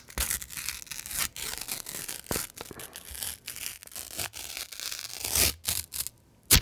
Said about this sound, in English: I have the envelope here and I'm going to open it.